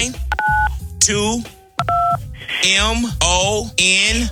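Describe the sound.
Telephone keypad dialing tones as a caller enters a key code for an on-air radio contest: two clear, short dual-pitch beeps under and between continuous talk.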